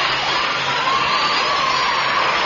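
Recorded audience applause played from a record in a comedy sketch, a loud, continuous roar of cheering crowd with shouts mixed into the din.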